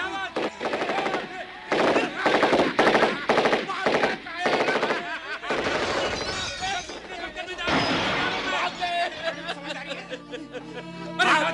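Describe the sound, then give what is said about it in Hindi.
Gunfire in a dramatized battle against an advancing enemy, with loud bursts of rapid automatic shots coming in quick runs, mixed with shouting voices. “अरे दुश्मन आ रहे, firing करो,”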